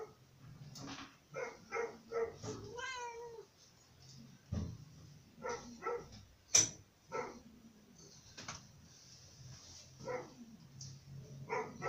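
A cat meows a few times, short high cries and one longer wavering call, fairly faint and spread out between quiet stretches and scattered small household knocks.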